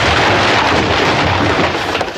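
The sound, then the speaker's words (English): A loud explosion-like roar: a dense, continuous rumbling blast that holds steady for about two seconds with no clear break. “Everything explodes.”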